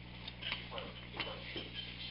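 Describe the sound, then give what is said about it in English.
Steady, fairly quiet ticking of a working clock, its beats spaced a little unevenly, with a faint low hum running underneath. “oh, you've got one of those nice clocks there that really works”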